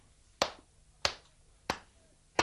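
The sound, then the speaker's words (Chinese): Knocks on the bolted door of an inn, four sharp raps evenly spaced about two-thirds of a second apart, each crisp and short with a quick decay and quiet gaps between them, with no voices. “唔怕，等我去敲门。”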